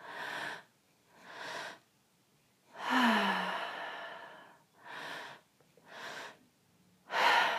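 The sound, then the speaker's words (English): Rapid breathwork breathing: airy in-and-out rushes in a quick rhythm, about six bursts separated by brief pauses, with one longer, drawn-out sigh-like exhale in the middle. No talking. “Some people like to take it really fast so that it sounds like this.”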